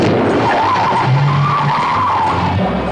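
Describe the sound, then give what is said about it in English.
The Batmobile skids and spins around, a loud, continuous tire squeal wavering in pitch above a steady engine roar for about three seconds. “My God, that Batmobile must have been spinning like three times in a row after that.”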